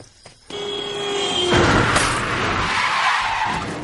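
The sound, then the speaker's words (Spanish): A car approaching at full speed and skidding: a rising engine whine builds, then gives way to a long, loud, harsh tire screech that holds for a couple of seconds before easing off. “Un coche se aproxima a toda velocidad.”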